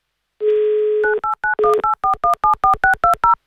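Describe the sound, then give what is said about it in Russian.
A telephone number for a call to Krasnodar Krai is dialled with DTMF tones: a steady dial tone, then a quick, loud run of many short electronic beeps at shifting pitches. “Звоним в Краснодарский край.”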